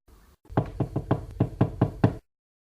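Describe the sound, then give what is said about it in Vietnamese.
Gentle knocking on a door from outside, a quick, even series of many soft raps heard on their own. “Tề Tư Mục ở bên ngoài nhẹ nhàng gõ cửa”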